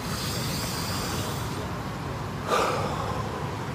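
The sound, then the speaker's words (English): A single deep breath is drawn during a calming tapping exercise: one short, soft inhale that rises briefly above a quiet, steady background hiss. “Deep breath.”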